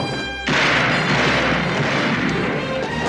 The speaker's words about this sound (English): runs up toward the house, shoots at the door from inside the house.